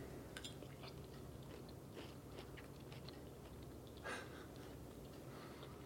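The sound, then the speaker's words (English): Someone biting and chewing a mouthful of a meat dish made with several ingredients; soft, crunchy chews and bites sit over a steady background noise, with one slightly louder bite near the end. “I want to taste the meat that went in here.”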